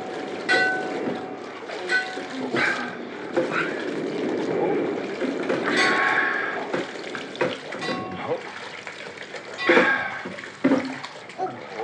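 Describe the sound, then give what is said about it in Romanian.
Rough, stormy sea churns around boats being readied for launch, a steady washing roar of water with irregular surges while people talk over it. “Mare furioasă rău.”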